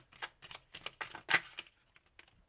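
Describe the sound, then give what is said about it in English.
Tarot love cards being shuffled and drawn: a quick run of crisp, faint flicks and snaps that thins out toward the end. “Something's telling me to pull from my love cards here.”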